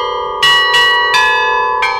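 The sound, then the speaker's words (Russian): Church bells of a cathedral under construction in Volgograd ring out over a city square: four loud strikes in an uneven rhythm, each leaving a rich, sustained metallic hum that overlaps the next. “Перезвон колоколов храма Александра Невского уже разносится по площади павших борцов”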